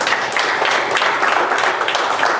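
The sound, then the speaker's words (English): Audience applause, a dense, steady wash of many hands clapping that stays even and loud from start to finish with no clear pauses. “Give a little hand of applause.”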